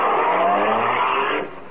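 A car driving off, a steady engine drone with a clear tonal hum that drops away and fades near the end.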